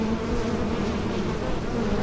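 Loud, continuous buzzing of many bees inside a giant beehive, a dense, steady droning hum with no pauses and no talk throughout.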